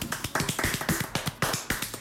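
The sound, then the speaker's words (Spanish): One person claps hands in a steady run of sharp, evenly spaced claps, with no talk. “Así que voy a aplaudir.”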